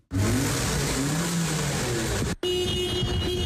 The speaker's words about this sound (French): à Plaine-Leuzon dans un centre de contrôle technique où plus de 300 véhicules passent chaque jour leur fitness